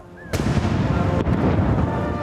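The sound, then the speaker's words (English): Artillery guns firing a 41-gun royal salute in central London: two sharp, loud blasts about a second apart over a continuous heavy rumble. “Shots ring out across St James's Park and the Mall as a 41-gun salute commemorates this occasion.”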